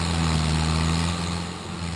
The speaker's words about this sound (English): he gives the okay to the tree service to crank up the grinder.